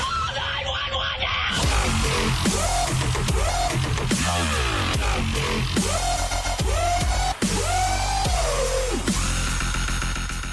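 Dubstep music track with loud, dense electronic production: heavy bass and repeated wobbling, swooping synth tones that bend up and down, continuous throughout with no talk.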